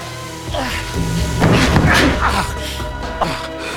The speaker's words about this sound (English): He opens the trap door and they jump down.